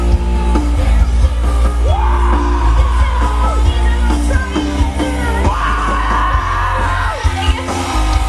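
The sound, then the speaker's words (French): Excited festival crowd on a beach yelling and whooping. The noise is loud and continuous, with long sustained shouts rising over the steady roar of voices. “Après 3 jours sans beaucoup dormir et une surconsommation de musique, le public est assez excité comme vous l'entendez.”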